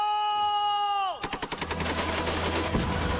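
Rapid gunfire from a war scene crackles in a dense volley of many shots that continues to the end. It follows a sustained tone that bends sharply downward in pitch.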